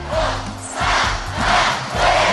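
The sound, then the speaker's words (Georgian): A crowd at a national team celebration chants the country's name, Georgia, in unison as loud, rhythmic shouts that swell and fall a few times. “მინდა ერთხად ყველამ შეძახილით ჩვენი ქვეყნის სახელი საქართველო.”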